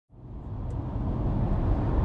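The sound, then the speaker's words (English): A car driving toward a hospital in Van Zandt County, East Texas. Its engine and road rumble starts abruptly and then holds a loud, steady, low roar. “Okay, I'm driving to Zandt County Hospital right now.”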